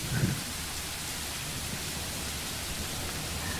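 Steady rain plays as a sound effect during a fantasy tabletop role-playing game, a dense, even hiss of falling drops that continues unbroken throughout.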